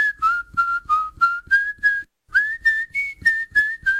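A man whistles a cheerful tune in clear, bright notes: one run of short, lilting phrases, a brief pause, then a second run that sits slightly higher. No voices are heard.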